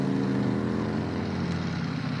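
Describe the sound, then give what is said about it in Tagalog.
A motorized tricycle stopping nearby gives a steady, low, buzzing engine drone that holds without break, with no one talking. “May tricycle nga nagpundo sa una, no?”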